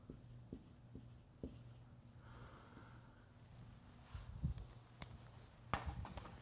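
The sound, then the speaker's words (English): Scratchy strokes of a word, selfishness, being written during a Bible lesson, a steady run of soft scraping marks with a few sharper, louder strokes near the end, no talking. “And we'll just, to wrap it all up, we'll write selfishness.”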